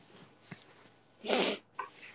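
Sniffling from a runny nose: a few short wet sniffs around one longer, louder breathy snuffle in the middle.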